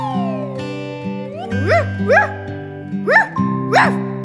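Dog barks sound over a playful tune in a children's song, four short harmonic yelps rising in pitch and spaced over a bouncy musical backing.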